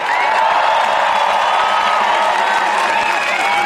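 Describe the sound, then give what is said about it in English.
A crowd cheering at a rally in Trafalgar Square, a loud, dense, unbroken roar of many voices that holds steady for several seconds. “So let's really give them a big cheer.”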